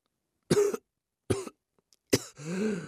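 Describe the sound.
A few weak, breathy coughs from a man whose lungs are still sore after choking. Three short bursts are spaced apart, and the last runs into a longer, strained, throaty sound.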